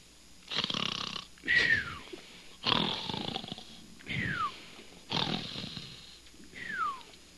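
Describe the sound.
A man snores in his sleep with six loud, rasping snores in a steady rhythm, several ending in a high whistling tone that falls in pitch.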